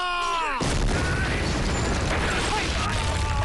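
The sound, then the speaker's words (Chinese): Explosive blasting during ore extraction in a mountain mine near Wuxi: a sudden, loud roar breaks in after a brief tonal lead-in, then holds as a dense, heavy rumble to the end. “我们的故事从无锡山里剔矿的开采开始。 使劲啊！放炮”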